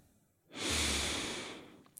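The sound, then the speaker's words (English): A single deep breath drawn in through the nose, a soft rushing inhale that swells and fades over about a second, alone in a quiet setting. “full breath in through the nose”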